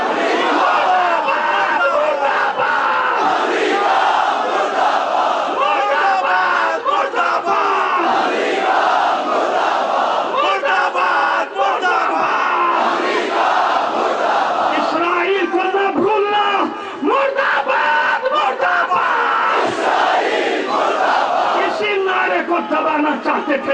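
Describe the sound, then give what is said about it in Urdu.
A large crowd chants a slogan in unison at an Urdu-speaking political and religious rally. The massed shouting voices stay loud and dense for the whole stretch. “تم چاہتے تھے یہ نعرہ نہ لگے”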